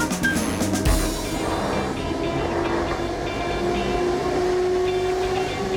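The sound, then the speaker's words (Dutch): A train travels through Afghanistan in 1993, with a steady rumble and rattle of the rail carriages running continuously. Faint high tones sit over the rumble, and a brief clatter comes near the start. “Er rijdt een trein door Afghanistan.”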